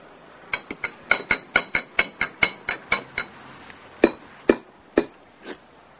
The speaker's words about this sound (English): Picking up his spoon, he starts to stir.